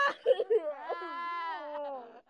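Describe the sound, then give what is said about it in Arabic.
Mourners weep and wail at the house of Jairus for a girl taken for dead, heard from afar: a few short sobs, then a long, drawn-out tonal wail that slowly sinks in pitch. “لما اقتربوا من بيت يايرس سمعوا بكاء الناس وعويلهم من بعيد.”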